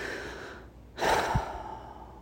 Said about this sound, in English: Let's take a long deep breath